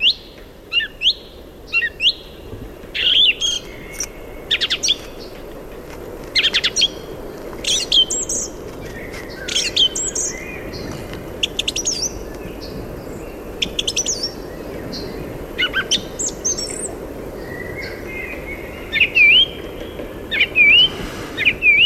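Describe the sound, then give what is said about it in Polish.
A song thrush sings many short, separate phrases of clear whistles and sharp chirps, repeated with brief pauses between them. The song is bright and fairly loud, with no voices. “Teraz posłuchamy dobrze znanego wszystkim nam drozda śpiewaka.”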